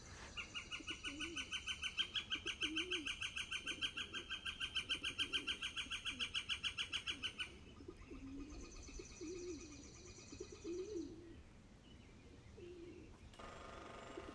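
A bird perched on a canister-like fitting among the electrical wires on a utility pole makes a long run of rapid, even, ringing pulses. A quieter, sparser stretch of softer lower sounds follows.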